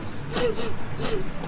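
A woman crying: two breathy, gasping sobs, each carrying a short, wavering voiced whimper, heard on their own.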